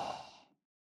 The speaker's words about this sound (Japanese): 吸って、鼻からゆっくりと吐いて、